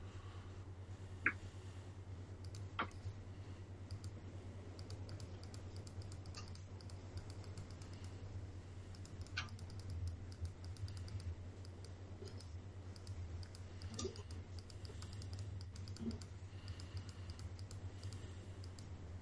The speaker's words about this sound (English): Sure is a lot of clicking. That's, I know. That's just the moving.